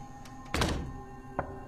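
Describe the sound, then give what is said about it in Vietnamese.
Knocking on a door, heard from outside: a few dull, hollow thuds spaced irregularly, the middle one loudest and a fainter one after a pause, with no voices. “Tiếng gõ cửa văng vẳng.”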